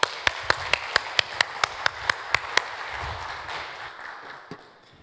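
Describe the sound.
Applause from an audience at a church service welcoming a speaker: about a dozen sharp, evenly spaced claps ring out over a broad wash of clapping that gradually thins and fades.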